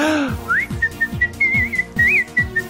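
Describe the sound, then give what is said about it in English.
People whistling a tune in short, bright notes, some wavering, over a steady low rhythmic pulse that repeats throughout. “I know, let's all whistle while we work.”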